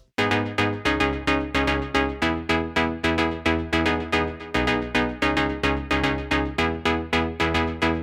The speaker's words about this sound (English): I also boost the frequencies around 2 and 2.5. So the same melody will sound like this.